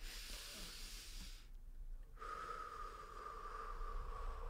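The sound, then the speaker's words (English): Faint breathing: a soft nasal inhale with a sniffing hiss, then a quieter pause and a low, steady airy exhale, heard alone without talk. “What I do is I take a breath. So do this with me. Oh, wait, in through the nose, out through the mouth.”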